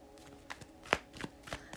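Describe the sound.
Playing cards being shuffled for a card reading give faint, irregular papery riffles and soft taps, with one sharper snap partway through and a few lighter flicks after it.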